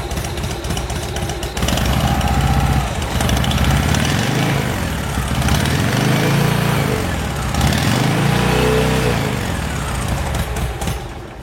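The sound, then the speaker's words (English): A motorbike engine runs after its fuel problem was fixed and the carburetor cleared. It makes a loud, rough, continuous idle, with a few revs swelling and easing back in the middle stretch. “Turn the bike on. Haha, fuel problem it was. Listen to that right there.”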